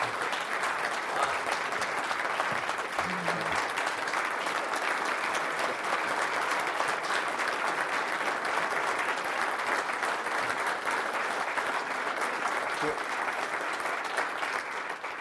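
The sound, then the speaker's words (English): An audience gives a standing ovation: loud, unbroken applause that holds steady and dense for the full length, with no break or fade. “For the NPR audience, I should say that Peter just got a standing ovation. I think it's the first time in a very long time, first time I can remember that anybody's gotten a standing ovation here.”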